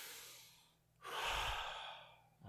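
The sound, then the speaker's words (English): A single deep breath drawn in, a loud, airy, steady rush lasting about a second and a half, with no talk over it. “Hold on. Deep breath in. Take a.”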